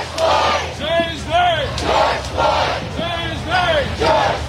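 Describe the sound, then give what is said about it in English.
Protest marchers chanting in unison as a crowd moves peacefully through city streets, a rhythmic, shouted slogan repeated about every second over steady crowd noise, with no pauses between phrases. “The march ultimately made its way peacefully through the city with chants of I Can't Breathe”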